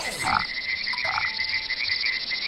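A frog croaks, giving a couple of short, raspy croaks early on over a steady, high, buzzing drone that continues alone to the end.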